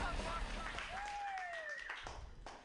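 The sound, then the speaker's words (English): Applause and cheering from an audience welcoming a female stand-up comedian: a steady, dense wash of clapping runs throughout, with a few whooping voices rising above it. “Put your hands together. It's Jenny Hogan.”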